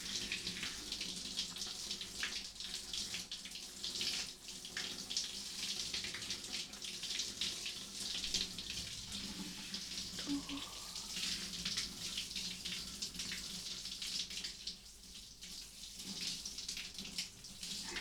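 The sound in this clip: Running water rinses a person's arm during bathing, a steady, even splashing flow that continues throughout without breaks or speech.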